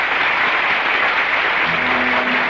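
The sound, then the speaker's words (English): Theater audience giving an ovation at the end of an original play in a small theater off Times Square: thick, continuous clapping from many hands at a steady, full level with no pauses. “And the curtain falls on the final act of another original play in the Little Theater off Times Square. Mrs. Soleil and Miss Lottie are in front of the footlights. The audience is giving them an ovation.”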